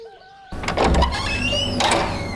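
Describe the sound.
Door being opened: a sudden rough scrape starts partway through, followed by a drawn-out, whining creak with sliding tones. It is moderately loud, and no one talks.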